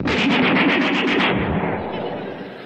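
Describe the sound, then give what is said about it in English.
Rapid automatic fire from an Uzi machine gun: a fast, evenly spaced burst of many sharp shots lasting about a second, then a fading, rumbling tail. “Did you know that some of those cowboys use these things for machine guns?”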